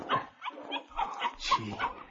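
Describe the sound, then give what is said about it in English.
A puppy gives several short, high yips and whimpers in quick succession, bright and nasal, alone with no talk. “just wait a second till I hold my puppy.”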